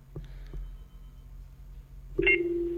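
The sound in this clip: A telephone signals an incoming call: two short clicks, then a sustained electronic ringing tone with a bright, buzzy edge that starts near the end, with no voices.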